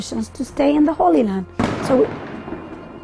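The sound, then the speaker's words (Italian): Tear gas canisters and stun grenades fired by the Israeli army from a tower to disperse children in a refugee camp: voices, then a single sharp bang with a lingering decay, followed by more voices. “Abbiamo appena sentito il rumore dei gas lacrimogeni e delle bombe sonore. Provengono dalla torre dell'esercito israeliano qui, per disperdere i ragazzini del campo profughi,”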